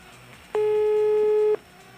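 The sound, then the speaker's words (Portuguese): Telephone line tone as a call is placed: one flat, steady, mid-pitched electronic beep lasting about a second, sounding alone against quiet background. “Atenção, lá vai, vou ligar agora.”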